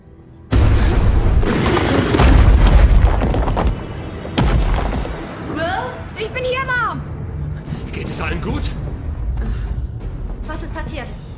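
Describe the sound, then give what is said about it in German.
Deep, rumbling booms of glacier ice breaking apart after being blasted: a loud sustained crash at the start, a second heavy boom a few seconds later, then a lingering rumble as voices talk over it. “Es war so, als ob uns etwas getroffen hätte. Das ist der Gletscher. Er bricht auseinander, als die Mädchen das Eis gesprengt haben.”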